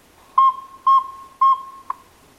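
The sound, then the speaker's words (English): Saw-whet owl call played from an audio lure: a steady series of clear, high whistled toots, three longer notes followed by a shorter fourth, evenly spaced over a faint continuous tone. “activates an audio lure that plays a saw-whet call”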